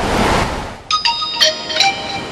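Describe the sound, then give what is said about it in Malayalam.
A WhatsApp message notification on a phone at a beach: a few bright, high chiming pings in quick succession, following and partly over a steady rush of surf-like background noise. “എന്താ വാട്സാപ്പിൽ message? നോക്കട്ടെ.”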